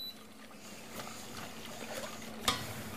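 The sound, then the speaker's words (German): Soft stirring of a mixture in a pot as it heats toward a boil, faint scraping over a low steady hum, with one brighter clink of utensil against the pot near the end. “Jetzt rühre ich so lang, bis es sich einmal so aufgekocht hat.”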